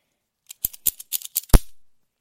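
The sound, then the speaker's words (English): A combination padlock being opened, with several small sharp clicks as the shackle is squeezed and the code is keyed in, then a louder clack as the shackle is pulled up. “Squeeze the shackle twice. Type in my code. Pull it up. Now I'll show you again how fast I can do this.”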